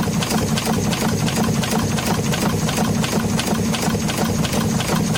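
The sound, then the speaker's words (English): Steamboat engine chugging: a dense, continuous mechanical pulsing at a rapid, even rhythm, loud and steady from start to finish with no voices. “Here's the sound of a steamboat, for those of us who are not familiar.”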